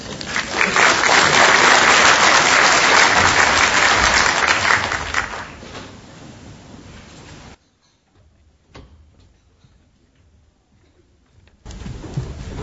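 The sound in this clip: Audience applause welcoming a speaker at a multi-day conference, a loud, dense clatter of clapping that gradually dies away, then near silence with a faint sound near the end.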